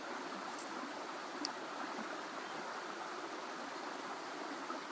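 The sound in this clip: River water flowing gently over volcanic rocks beside a bank of grass, earth, trees and small flowers, a soft, faint, unbroken rush of moving water that holds steady throughout.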